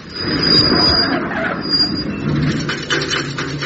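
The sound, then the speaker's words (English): The engine of a 23-and-a-half-year-old van breaks down with the big end gone: a rough, grinding mechanical rumble with rattling noise, fairly loud and steady throughout. “Sounds like the big end's gone.”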